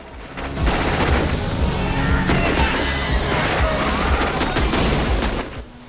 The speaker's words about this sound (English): the vampire hunters spraying them with bullets as they go.